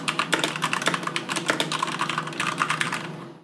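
Typing on a computer keyboard, with many quick key-switch clicks in an uneven, rapid patter at a fairly steady level that trails away at the end.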